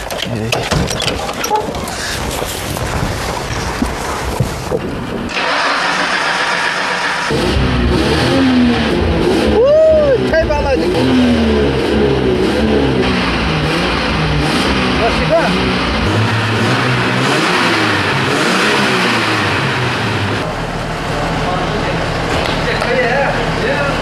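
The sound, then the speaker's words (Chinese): A car engine starts and revs hard as the accelerator is floored, giving a loud rising and falling roar that swells and settles again. People talk over and around the engine noise. “我能不能上去塞一塞油门，听一下声音？ 发动，发动。”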